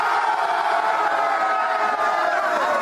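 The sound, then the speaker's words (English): A brief, loud burst of many men whooping and cheering together, New England Patriots players celebrating an extra day off, sustained without a break. “That's the sound of 53 dudes who probably haven't had a day off in 53 months. Listen to the unbridled elation.”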